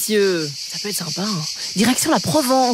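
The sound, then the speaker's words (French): Cicadas in Provence in the south of France chirp in a steady, high, shimmering drone that runs beneath continuous talking throughout. “ce petit bruit que vous entendez, les petites cigales, elles arrivent à Bruxelles”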